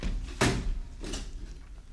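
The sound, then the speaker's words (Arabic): A door being closed, heard as one sharp, fairly soft thud followed a little later by a weaker knock, with quiet background otherwise. “طيب طيب تعالي. استنى ما رد الباب.”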